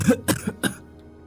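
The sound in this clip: Dry, hacking coughs from a woman sprawled in the mud after being kicked, a few short harsh bursts in quick succession that then trail off into quiet.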